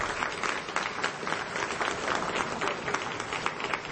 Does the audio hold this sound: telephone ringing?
no